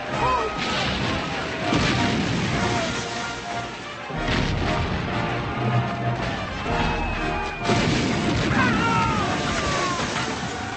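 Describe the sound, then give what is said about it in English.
Artillery shells exploding in a battle scene, with heavy booms and crashes bursting out of dense, continuous rumbling noise in repeated waves. “Shells, if you notice, there's not a lot of fire or anything. It's just the when a thing goes off, it's just the, you know, the smoke and dust and everything, because that's what they really were.”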